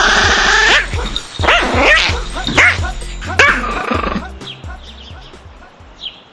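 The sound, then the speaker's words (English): Cartoonish yapping barks from a dog in a video game, a quick series of short, bright yips in a steady rhythm that thin out to a few fainter sounds near the end. “Good boy, Super Dog. Great game.”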